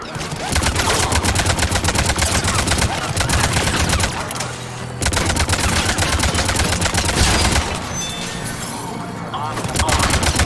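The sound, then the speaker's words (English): Rapid automatic gunfire firing cover-piercing bullets in a video game: dense, continuous loud bursts of shots that overlap into a steady rattle, broken by brief lulls. “I sometimes forget that we have this cool cover-piercing bullet stuff.”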